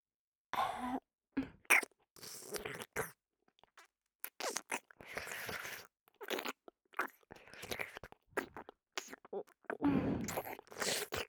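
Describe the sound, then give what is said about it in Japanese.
Ear-licking ASMR mouth sounds: quiet, close, wet licks and smacks come in many irregular short bursts separated by near silence. “耳なめ始めていくからね。いただきます。”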